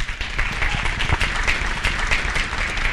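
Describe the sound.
Brisk audience applause welcomes a returning speaker at a faith education event, many hands clapping in a full, loud, continuous wash.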